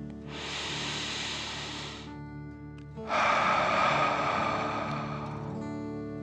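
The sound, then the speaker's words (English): A deep breath in and a deep breath out come during a guided relaxation exercise. They are two long, airy, hissing breaths, the first shorter and softer, the second louder and more sustained, with a short pause between them. “Relax and take a deep dragon breath in and out.”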